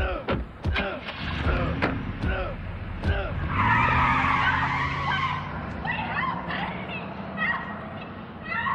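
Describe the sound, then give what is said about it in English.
Car tires squeal in a loud skid in a film scene, and a revving engine carries the car away. A few sharp thumps come before the skid, and voices can be heard in parts. “The car drives away and we see Brighton's car pull in.”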